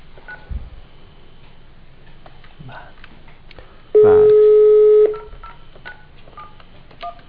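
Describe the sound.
A telephone keypad tone sounds as a caller's personal number is dialled during a live call-in: one loud, steady electronic beep lasting about a second, standing out over faint background clicks and murmur.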